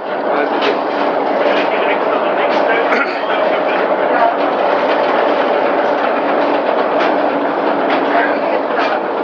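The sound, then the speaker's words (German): Steady, loud rumble of a diesel railcar running along an overhead rail track, a dense continuous roar that holds at the same level throughout without pause. “Wir laufen jetzt wieder unter so einer Schiene für eine Dieselkatze lang. Aber die fährt hier gar nicht mehr, oder? Doch, die fährt.”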